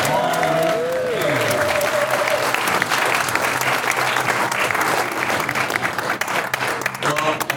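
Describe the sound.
Audience applause fills an evening event honoring King Kong: a crowd claps loudly and continuously throughout, a dense patter that stays steady to the end.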